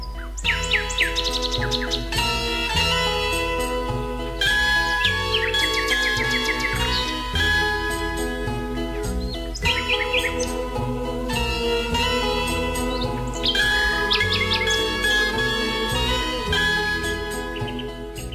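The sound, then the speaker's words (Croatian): A nightingale singing a long, varied song of bright whistles, quick trills and melodic phrases, loud and continuous with brief pauses between phrases and no talk over it. “Slavuje obično prvo čujemo, tek onda vidimo kako se skriva u lišću grana. Glas slavuja čuje se danju i noću.”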